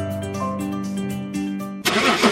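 A sports car engine starts with a sudden loud, broad roar near the end, after a steady humming stretch.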